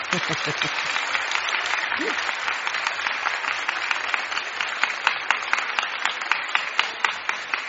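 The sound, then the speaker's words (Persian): Steady audience applause greeting a new arrival, many hands clapping densely and evenly throughout, with a brief voice audible at the very start. “آها حاجی طاهری اومدن، یه دستم برای ایشون بزنید.”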